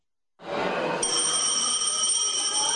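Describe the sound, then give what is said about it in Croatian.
A school bell rings to mark the last day of classes and the start of summer holidays for pupils in Republika Srpska. It opens with a rough, rattling burst, then settles into a loud, steady, bright ringing that runs unbroken with no talk. “Školsko zvono danas označava kraj nastave i početak ljetnog raspusta”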